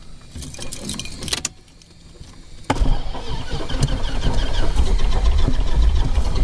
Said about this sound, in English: It's starting. And there it is. Feel the breeze? Yes. Those propellers put off quite a breeze. They really do. So the plane has started.